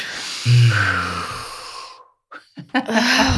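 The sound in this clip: Deep breath: a long, audible breath lasting about two seconds with a low voiced hum through it, followed by a quiet pause and a few short breathy bursts.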